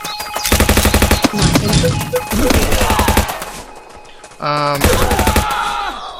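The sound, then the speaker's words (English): Machine gun firing in a video game, loud rattling bursts of rapid shots separated by short pauses, with a brief buzzing electronic game sound partway through. “Machine gun. Ammo from the machine gun.”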